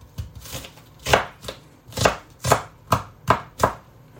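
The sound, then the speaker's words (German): A knife chops an onion on a board in a steady series of crisp thuds, several of them sharp and strong, at an even pace with short gaps. No voices are heard. “Und wenn ich noch ein Drittel habe, dann lege ich die Zwiebel um, dann ist es besser zum Schneiden. Ich mache das klein, so.”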